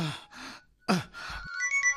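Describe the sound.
A phone's electronic ringtone starts near the end, playing a short run of bright, high melodic beeps after some breathy vocal sounds.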